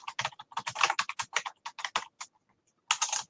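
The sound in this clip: Rapid typing on a computer keyboard: many crisp, irregular keystroke clicks in a steady run, a short pause, then a final quick burst of keys.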